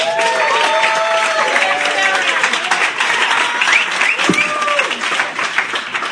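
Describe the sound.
Audience applause at a poetry reading series' tenth anniversary: dense, sustained clapping with whoops and cheering voices running through it the whole time.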